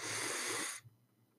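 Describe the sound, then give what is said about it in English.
A deep breath drawn in: one long, airy inhalation rushing steadily for most of a second, then cutting off into near silence. “as usual, we take a moment to take a deep breath. So let's begin. In,”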